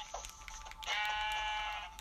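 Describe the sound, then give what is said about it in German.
A sheep bleats in a video game: one faint, steady, nasal bleat lasting about a second, preceded by a few soft, short taps. “Da hinten ist ein Schaf.”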